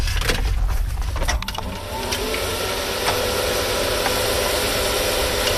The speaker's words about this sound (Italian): l'ideatore del robot, collega le batterie, gira la chiave e schiaccia il bottone d'accensione.